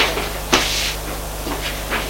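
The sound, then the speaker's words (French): A door opens with a short click followed by a soft, airy swish, set against a steady low hum. “La porte s'ouvre et il entre.”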